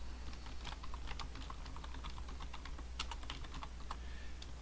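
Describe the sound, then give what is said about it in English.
Many quick keystrokes of typing on a computer keyboard as text is entered, a faint, fast and uneven clatter over a steady low hum. “So I can type in”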